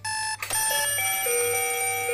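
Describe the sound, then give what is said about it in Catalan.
An alarm clock ringing: a loud, bright electronic tone that cuts off briefly, then resumes as shifting chime-like notes that hold steadily to the end. “despertador?”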